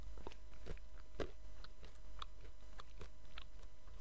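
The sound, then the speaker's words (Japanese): Kaki no tane rice crackers with peanuts are crunched in faint, crisp, irregular bites, with many small snaps and chewing noises and no talk. “何かしながらですよね、柿ピー食べるときって。”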